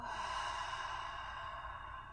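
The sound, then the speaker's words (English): A deep breath exhaled through an open mouth during a floor-based relaxation exercise: one long, steady, breathy rush of air, soft and even throughout, with no talking. “Take a nice deep breath in through your nose. Open your mouth, let that breath go.”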